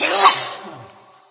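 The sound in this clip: One sneeze: an abrupt, forceful burst of breath that peaks quickly and then trails off into a fading exhale.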